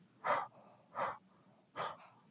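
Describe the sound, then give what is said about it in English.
Three soft, breathy exhales into a cupped palm, evenly spaced about a second apart, each a brief airy puff with quiet pauses between. “I want you to just take your palm, cup it a little bit, and exhale into your palm.”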